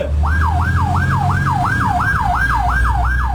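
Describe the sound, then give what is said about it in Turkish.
Fire engine siren on a city boulevard in Diyarbakır, responding to a fire call as drivers pull aside in a zipper formation. A loud, rapid yelping wail repeats in many quick, even cycles over a low engine rumble. “Silvan Bulvarı'nda yangın ihbarı için yola çıkan itfaiye ekiplerine sürücüler yol vermek için fermuar sistemine geçti.”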